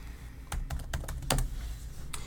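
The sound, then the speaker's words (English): Typing on a computer keyboard while entering a school name into a college search field: faint, quick keystrokes in an uneven run, with a short pause before a final tap. “You type in Vermont, which I am doing”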